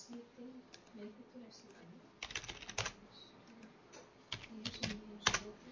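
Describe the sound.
Typing on a computer keyboard in quick bursts of clicks with short pauses between them, and a quiet voice talking underneath.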